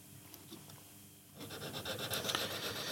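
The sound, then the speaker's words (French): A jeweller's small needle file rasping on metal jewellery claws to refine them: quiet, quick, repeated scraping strokes that begin partway through and grow slightly busier. “Je vais les affiner avec une petite lime aiguille.”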